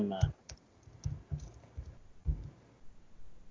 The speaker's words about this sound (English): both of us are typing.